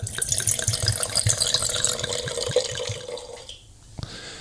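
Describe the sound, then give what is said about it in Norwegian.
Wine poured into glasses, a continuous splashing gurgle that runs steadily, then thins out and fades toward the end. “det I hvert fall nydelig lyd når vi heller I glassene våre”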